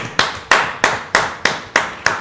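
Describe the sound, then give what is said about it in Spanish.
Hand clapping as applause for a correct answer in a comics quiz segment: seven sharp, evenly spaced claps in a steady rhythm, loud and without voices. “¡Un aplauso!”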